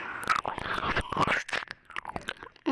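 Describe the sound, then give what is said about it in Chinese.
Close, wet mouth sounds of kissing and tongue sucking: many quiet smacks, slurps and clicks in an irregular run, ending with a slightly louder smack. “然后你跟姐姐舌吻亲亲，姐姐吸你的舌头，”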